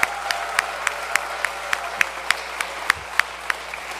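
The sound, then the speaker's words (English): Audience applause for mothers at a Mother's Day church gathering: a steady, even pulse of sharp claps in unison rings out over a soft, continuous wash of clapping, keeping the same brisk tempo throughout. “we need to get loud for the moms. Yeah? Give it up. Happy Mother's Day, moms.”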